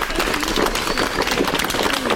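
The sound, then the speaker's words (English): Audience at a film screening in Darwin giving the filmmakers a round of applause, a continuous, dense patter of many hands clapping at a steady, moderate level. “So one more big round of applause for Manu and Kerry.”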